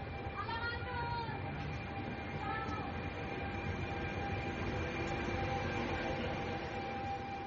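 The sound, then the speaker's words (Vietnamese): A train carrying migrants departs in Catania, giving off a steady, broad rumble with a faint tonal whine that holds evenly throughout, and voices are present. “Chuyến tàu chở những di dân giờ đây bắt đầu khởi hành.”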